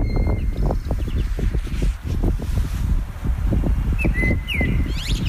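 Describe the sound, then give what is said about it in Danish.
A bird sings outdoors in the morning, giving short, high whistled chirps and trills that come mostly near the end, over a heavy low rumble of wind. “Jeg var faktisk gået ind af døren, og så tænker jeg, den der fugl, den skal fandme optages. Det skal ikke være forgæves. Så gik jeg ud igen. Så her er fuglen.”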